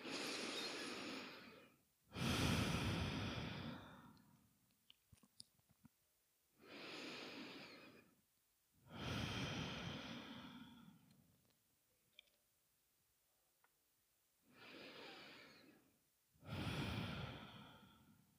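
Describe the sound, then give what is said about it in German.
Slow, deep breathing in and out through the open mouth, six long airy breath sounds forming three unhurried cycles with pauses between, alone apart from a few faint clicks. “Nimm ein paar Atemzüge ein und aus. Gerne auch nochmal durch den geöffneten Mund ausatmen.”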